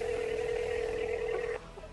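A telephone sounds a steady, clear tone while a number is dialed; the tone holds for about one and a half seconds before cutting off, followed by a few faint blips.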